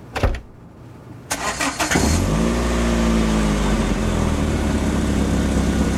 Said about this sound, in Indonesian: Switch kabel starternya copot. Mudah-mudahan benar. Coba di starter.